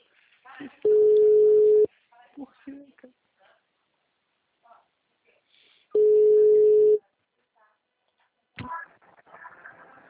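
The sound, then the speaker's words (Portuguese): A telephone line tone sounds after a call has dropped: two steady, mid-pitched beeps, each lasting about a second and roughly five seconds apart, with faint voices and line noise in the gaps. “Caiu, dona Valmira, a ligação.”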